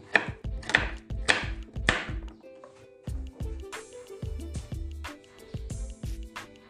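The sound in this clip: A knife cuts on a board in many sharp, rhythmic chopping strokes, crisp and fairly loud at first, then continuing in quicker, lighter cuts.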